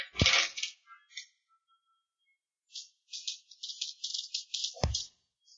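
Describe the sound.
Dice rattle and clatter during a tabletop role-playing game: a sharp burst of rolling, a few faint clicks, then a longer run of quick tumbling taps ending in a firm knock.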